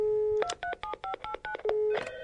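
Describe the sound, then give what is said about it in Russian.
Cell phone touch-tone dialing: a rapid run of several short, evenly spaced keypad beeps. A steady tone comes before the beeps and another steady tone follows them. “достал из-под полы свой сотовый телефон и позвонил отцу Адамса.”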